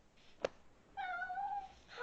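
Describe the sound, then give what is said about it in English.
A person imitating a cat's meow: after a brief sharp click, a single drawn-out, mid-pitched meow-like cry with clear harmonics lasts under a second. “That was so not a real cat.”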